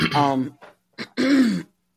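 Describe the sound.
A person clearing an itchy throat: a few loud, voiced, rasping bursts separated by short gaps, with the first and last bursts longest.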